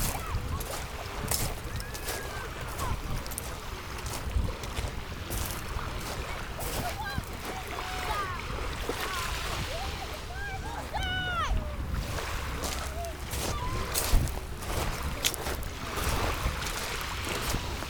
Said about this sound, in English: And a bit closer to the waves for you.